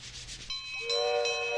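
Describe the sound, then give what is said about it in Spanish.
A train approaching: a brief rough rubbing noise gives way to a steady tonal horn or whistle, which shifts to a lower, fuller chord and grows louder toward the end, with no talk. “¡Miren! ¡Ahí viene el tren! ¡Qué tren más lindo!”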